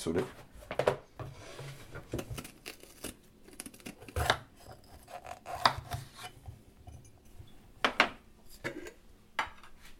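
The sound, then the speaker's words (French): A knife cuts a bell pepper on a board for an omelette, giving a few sharp chopping knocks at irregular intervals with scraping and rubbing between them. A voice talks faintly underneath. “Donc là, je vais découper mon poivron pour le faire”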